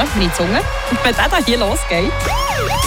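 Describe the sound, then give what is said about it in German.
A radio station's ticket alarm sound effect rings out as loud wailing, siren-like tones that sweep up and down in pitch repeatedly, with voice-like sounds woven through the effect. “Und wenn der Ticketalarm, wenn das hier losgeht,”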